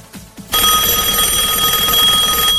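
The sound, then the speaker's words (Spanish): A telephone rings with an incoming call: a loud, continuous electronic trill cuts in abruptly after a short quieter stretch and sustains unbroken to the end. “Creo que nos está entrando una llamada.”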